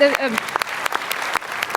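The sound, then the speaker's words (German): A small round of applause at a presentation: a handful of scattered, separate claps follows a brief voice at the start, light and irregular rather than a full ovation. “Kleiner Applaus.”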